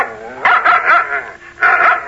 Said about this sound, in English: It was the dog in the tree. The first one with the eyes as big as saucers.